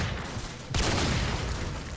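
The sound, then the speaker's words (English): A virtual Barrett sniper rifle fires in a war video game: one sudden, loud blast with a sustained rumbling tail, rising out of steady background noise. “This is a Barrett sniper rifle. This is Call of Duty, the biggest war game on the market, and it features a virtual Barrett sniper rifle.”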